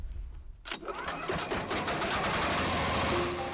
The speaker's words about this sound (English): After collecting the prosopis, the villagers feed it into the grinder. The result? Nourishing powdered food for the animals.